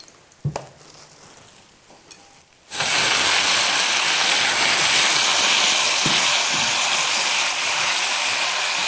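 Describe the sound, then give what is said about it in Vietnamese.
Tomatoes stir-fried in a hot pan: after a few quiet clinks, a loud, steady sizzling hiss bursts in as the tomatoes hit the oil and continues evenly to the end. “Và sau đó chúng ta xào cà chua luôn.”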